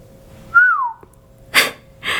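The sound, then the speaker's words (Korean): A person whistles once in a dark warehouse: a clear, bright note that glides downward in pitch, followed by two short breathy bursts of air. “지우가 휘파람을 불며 말했다.”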